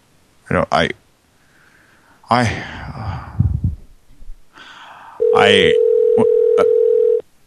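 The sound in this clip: Telephone dial tone: a steady, single-pitched hum holds for about two seconds, starting right after a few spoken words from a caller.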